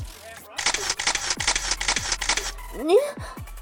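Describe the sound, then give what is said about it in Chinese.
A camera shutter clicks in a rapid burst of many even shots, followed by a brief vocal sound. “你怎么可以拍照片？ 快删了！”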